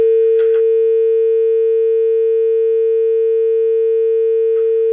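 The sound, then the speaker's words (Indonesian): A telephone line gives a continuous, steady electronic tone after a call drops. It stays loud and unbroken throughout, with a brief faint crackle near the start and another at the very end. “Oke, sayang sekali terputus ya.”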